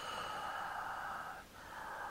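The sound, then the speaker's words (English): Breathing through a thick, tight-fitting latex mask, made as a film sound effect: a long, muffled, hissing breath dips briefly, then a second breath follows at the same steady, moderately loud level. “I find that the Halloween 6 breathing noise is a little bit more true to what it sounds like in an actual latex mask that's a little thicker and sits up a little tighter”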